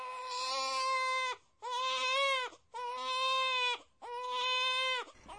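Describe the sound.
A small baby cries in four long wailing bursts, each a sustained, high, strained tone separated by brief pauses, heard alone.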